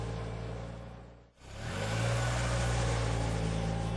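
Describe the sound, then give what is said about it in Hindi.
A new car drives off at night with friends on board: a steady engine drone briefly drops away, then the engine builds back up and holds a loud, even hum. “साहिल एक दो घंटे बाद गाड़ी लेके चल पड़ा friends के साथ सेलिब्रेट करने।”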